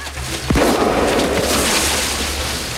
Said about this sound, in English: Then he shoots the fleeing writer in the leg.